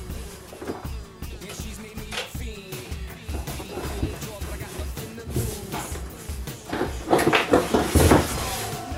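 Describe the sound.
A Xiaomi Mijia M365 electric scooter is lifted out of its cardboard box: many rustles, knocks and light thuds, which grow busier and louder toward the end.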